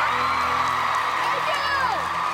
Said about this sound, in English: A girl stands up, clapping enthusiastically. Another punches the air and hollers. The audience rises to their feet, giving Cecilia a standing ovation.